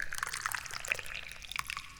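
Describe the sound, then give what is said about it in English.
Tea being poured: a faint, thin trickling stream with small splashy drips scattered through it, quiet and without talk. “Every committee member around the world knows it is now time to pour the tea.”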